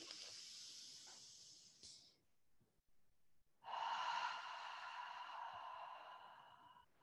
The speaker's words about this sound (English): let's take a deep breath in together and a big exhale out.